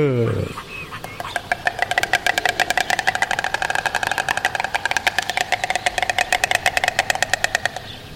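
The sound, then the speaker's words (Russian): Two storks on their nest clatter their bills in a duet. A loud, fast, steady rattle of dry knocks runs on for several seconds without a break. “Такой получается дуэт, два аиста на гнезде. Полное ощущение, что кто-то из них удачно пошутил, и они просто заливаются.”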